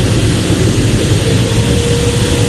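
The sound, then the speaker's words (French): Engines of an A400M roar loudly and steadily while being throttled up aboard the aircraft, a dense, constant, low-heavy rumble with a broad hiss that fills the whole clip without pause. “Voilà, on continue à mettre les gaz à bord de cette A400M.”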